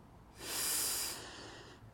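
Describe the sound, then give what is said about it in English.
A slow breath is drawn in through the nose as a soft, airy hiss. It swells over about a second, then eases off and trails away. It is quiet and heard alone. “Slowly breathe in through our noses.”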